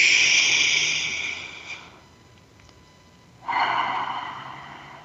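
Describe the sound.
A deep breath in, heard as two airy, breathy swells: a long one at the start that fades, a quiet pause, then a second strong rush of breath that tapers off.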